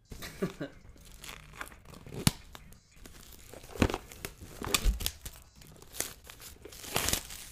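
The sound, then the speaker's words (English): Packaging being ripped open on a toolkit box, with many irregular bursts of tearing and crinkling plastic and paper, some sharp and loud, others softer, scattered unevenly throughout. “let's see if I can get some good rip sounds”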